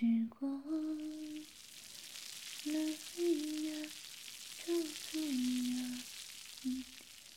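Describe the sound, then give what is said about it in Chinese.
Food sizzles as it fries in a pan, a steady hiss running through the whole stretch while a voice speaks in short bursts over it. “老师现在呢，就去做饭”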